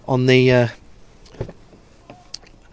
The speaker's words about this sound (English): it folds completely out of the way as well. Just close the tailgate.